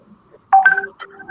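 A telephone number is dialed as a few short, bright keypad tones in quick succession, with near silence between them and no voices.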